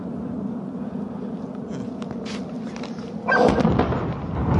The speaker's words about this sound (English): And you can see the explosions. That was the sound of it. It's from very far away.